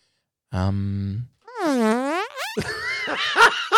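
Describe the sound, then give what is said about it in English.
A fart sound effect: a low, buzzy, flat tone lasting under a second, then a quick rising whistle-like sweep, followed by a brief burst of voice. “open with the fart”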